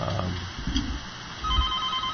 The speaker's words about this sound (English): Looks like another caller calling in.